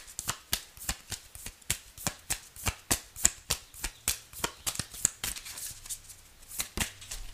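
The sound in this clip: Tarot cards being shuffled: a quick, steady run of many crisp riffling snaps at a soft level, with no talk.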